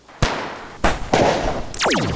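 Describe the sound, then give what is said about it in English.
Gunshots in a ferocious gun battle in an upstairs storage room: four sharp, loud cracks spaced irregularly, the last trailing into whining, falling-pitch ricochets. “he finds himself caught in a ferocious gun battle.”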